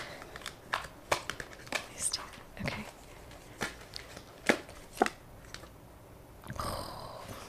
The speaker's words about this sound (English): Cut the deck. Cut the deck. Okay.